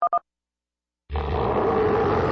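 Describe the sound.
A big cat's roar, loud, rough and sustained, bursts in after two brief electronic beeps and about a second of silence, then holds steady to the end.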